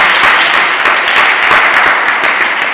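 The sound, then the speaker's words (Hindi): Energetic applause rises from the audience at a Christian worship gathering, a loud, dense wash of clapping hands that stays steady throughout. “तो यीशु के लिए जरा जोरदार तालियां हो जाएं”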